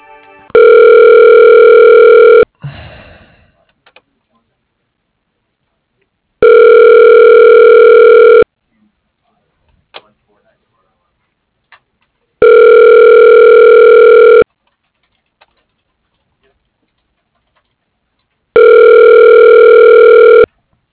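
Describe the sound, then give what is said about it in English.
A phone line rings with a ringback tone while a call is transferred to voicemail. Four steady, buzzy tone bursts of about two seconds each repeat at an even pace, separated by long silent gaps. “Let me put you through to his voicemail. Just a moment.”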